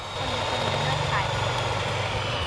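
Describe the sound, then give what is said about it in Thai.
An electric mixer whirs as it beats eggs into foam, with a steady, droning motor hum that holds at an even pitch and loudness throughout. “ค่อยๆจีบลงไปลูกเร่งขึ้นล ู กเร่งสปีดขึ้น”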